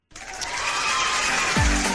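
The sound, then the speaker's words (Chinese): Applause on a singing competition show bursts in abruptly and holds steady and full, with a low swooping effect near the end. “这个必须得来段这掌声，太好了”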